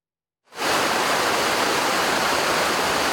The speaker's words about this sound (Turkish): bu yıl Anadolu'da epey bereketli bir yağış dönemi yaşandı. Saitabat Şelalesi'nde de su seviyesi rekor düzeye ulaştı.